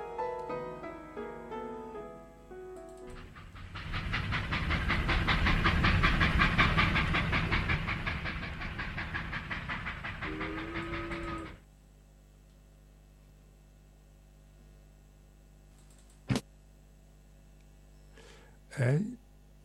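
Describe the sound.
A steam train sound effect follows a brief musical opening: a loud hiss with rapid chuffing builds and holds for several seconds, then stops abruptly, leaving a low, quiet background.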